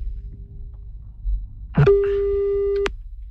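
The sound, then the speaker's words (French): A telephone ringing, heard as one steady electronic ring tone lasting about a second. It rises out of faint, low background noise and then cuts off abruptly. “Ça sonne, on va peut-être appeler un autre.”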